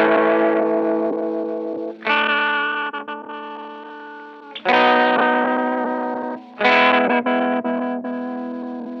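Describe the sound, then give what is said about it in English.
Heritage H-535 guitar on its bridge pickup, played through a Generation Loss pedal: four distorted chords, each strummed and left to ring with a wobbly, warbling sustain that slowly fades before the next hits. “Let's go as bridgey as we can get. Love it. I'll bet that bridge sounds really great with that generation loss.”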